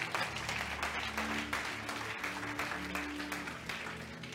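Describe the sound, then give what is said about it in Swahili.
Congregation clapping for Jesus during a Swahili-language sermon. A sustained, crackling patter of many hands runs over steady, held keyboard chords, with brief dips and swells in the clapping. “Mpe Yesu makofi kama unaamini.”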